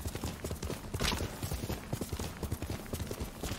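Horse hooves clip-clop as a horse is ridden, with many quick, evenly spaced strikes that keep a steady trotting rhythm from start to finish.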